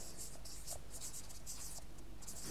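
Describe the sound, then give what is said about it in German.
Pen scratching across a drawing as a word is written on it, a few short scratchy strokes in quick bursts, faint over a steady low hiss, with no talk. “Da schreiben wir mal drauf die Persönlichkeit.”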